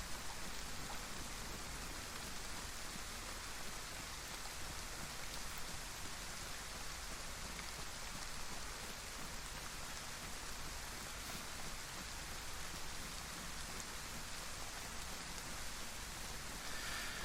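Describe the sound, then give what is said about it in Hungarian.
Rain falls steadily in a forest in a video game, an even, unbroken hiss of many drops that keeps a constant level throughout with no voices. “Itt is esik az eső, egy hatalmas erdőben vagyok”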